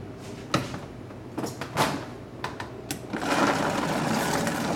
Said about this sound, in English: a tablespoon of balsamic vinegar. And now we're gonna blend it up.